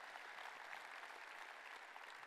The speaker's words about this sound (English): Can we just give Brad another round of applause as well?